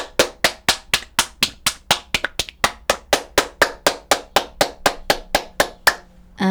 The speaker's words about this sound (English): Wait, maybe I can find this resonance. Oh, here. You can hear how sound is bouncing from the ceiling to the...